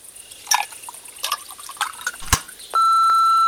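An answering machine beep sounds as a steady, sustained high tone that begins late and holds to the end. A few scattered clicks and taps come before it.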